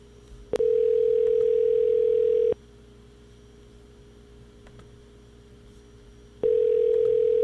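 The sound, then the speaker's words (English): A telephone dial tone sounds as a steady, loud, low hum in two stretches: the first follows a click and lasts about two seconds, and the second begins near the end, with quiet hiss between them. “Claims to be dialing. Let's dial from two different windows.”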